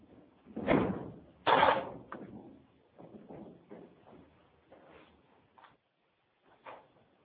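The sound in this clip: A house's front door being opened, two firm clunks of the latch and door, followed by quieter scuffs and knocks that fade into near silence.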